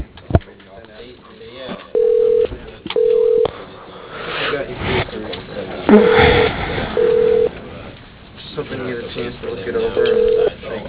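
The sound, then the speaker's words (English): Telephone keypad tones dialing a three-digit extension on an automated phone system: five short, steady, evenly pitched beeps sounding at irregular intervals over a noisy phone-line background. “Dialing.”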